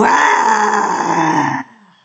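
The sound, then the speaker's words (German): Loud group roar from people leaning forward with eyes and mouths wide open and tongues stuck out, a sustained raw, growling vocal blast lasting about a second and a half before it cuts off into a fading tail. “öffnest die Augen ganz weit, öffnest den Mund ganz weit, die Zunge rausstrecken und brüllen. Und 1, 2, 3 und”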